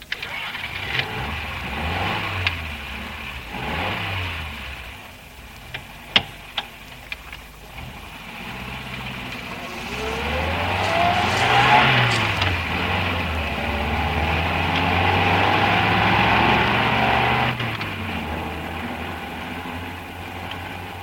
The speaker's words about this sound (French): Je prends le volant.